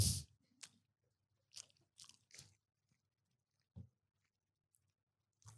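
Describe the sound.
Crunchy chewing of a savory snack seasoned with MSG: several sharp, crisp bites and crunches in separate bursts with quiet gaps between, faint and without talk.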